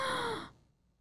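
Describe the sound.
A voice imitates an audience member's gasp: one breathy, airy intake, strong for about half a second and then quickly trailing off into near silence.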